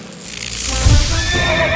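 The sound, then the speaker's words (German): A horse whinnies in a circus ring as horses enter, jump wooden barriers and perform tricks. One loud, wavering neigh rises out of a steady background hum in the second half. “In die Manege ritten nun einige Pferde ein und sprangen elegant über die Holzbarrieren und machten einige Kunststücke.”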